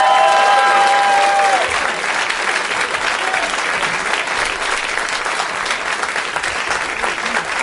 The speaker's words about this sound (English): A lot of John Hamm, a lot of people yelling, yeah, John Hamm.